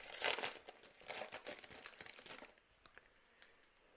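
A pack of 2022 Panini Optic UFC trading cards being opened: loud crinkling and tearing of the wrapper comes in dense bursts for a couple of seconds, then settles into softer, sparser rustles.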